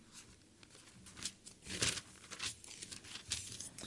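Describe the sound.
Thin Bible pages being turned during an evening church service, heard as soft, crinkly rustles and swishes. A few louder sweeps come in quick succession, and the whole sound is quiet overall.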